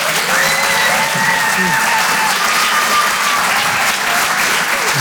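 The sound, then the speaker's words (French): Dense applause from a comedy club audience welcoming a stand-up comedian to the stage, loud and unbroken for the whole stretch with no pauses. “Je vous demande de faire un maximum de bruit, s'il vous plaît, pour David Azria.”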